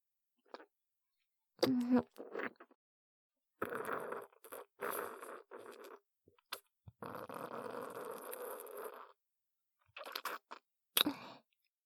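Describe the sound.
Someone chews a bite of food, with short bursts of crunchy, wet mouth sounds broken by pauses of silence, in an irregular rhythm that grows longer and steadier midway.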